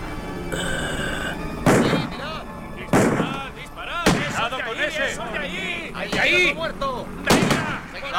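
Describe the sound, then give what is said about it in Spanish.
Gunfire as people shoot at zombies: several loud, booming shots go off at irregular intervals, and voices shout between the blasts. “Todos los zombies van siendo abatidos. Por aquí hay más. ¡Adelante! ¡Seguid disparando!”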